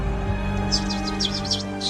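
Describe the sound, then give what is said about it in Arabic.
A person imitates a bird with a string of short, high chirps repeated in quick succession over a steady background hum. “طب صوصو كده، صوصو، ها جرب معايا”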